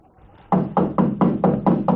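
Seven quick knocks on a door, a firm, hollow rapping in a steady, even rhythm that starts after a brief quiet moment.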